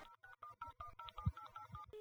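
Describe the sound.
Quiet telephone keypad tones as a number is dialed, many short beeps in quick succession, followed by one steady tone at the end.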